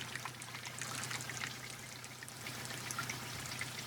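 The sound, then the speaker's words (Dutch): Water pours steadily from a large 1000-litre container as skating-rink workers in Doorn prepare ice on a freezing winter day; a faint, continuous rushing flow with light trickling and dripping. “Ja, ik hoor druppelen. Maar dit is het geluid van water dat vanuit een grote container, ja, precies, met 1000 liter water,”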